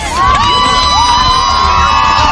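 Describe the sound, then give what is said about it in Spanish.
A crowd applauds and cheers for Gisèle Pelicot at court on the day of the historic verdict, with loud sustained shouting voices and cheering throughout. “Aplausos a la entrada y a la salida para Giselle Pellicot, sentencia histórica”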